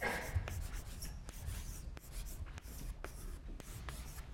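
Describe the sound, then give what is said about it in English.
Scratchy writing strokes on a board during a lecture on finance, with many short, steady marks in a continuous rhythm and no voice over them. “I wrote this again. I'll write this again.”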